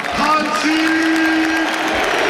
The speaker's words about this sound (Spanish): Ovación extraordinaria.